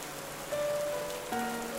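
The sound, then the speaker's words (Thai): Heavy rain pouring down, a steady, dense hiss of drops beating on surfaces that holds evenly through the whole moment, with no voices. “ฝนได้ตกลงมาอย่างหนัก”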